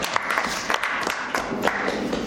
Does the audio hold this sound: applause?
yes